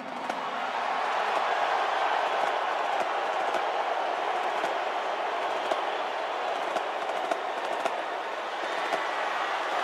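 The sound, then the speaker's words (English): Stadium crowd at a national championship football game roaring as a president walks in, a dense steady wash of cheering that holds at an even loudness throughout, with no single voice standing out. “Okay, so people were pretty enthusiastic about Trump arriving.”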